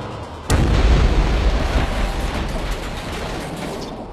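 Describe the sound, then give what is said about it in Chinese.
A powerful explosion from planted explosives destroys a bar: one sudden loud blast, then a long, heavy rumbling roar with crackling debris that slowly fades. “强烈的爆炸，整个酒吧被彻底摧毁。”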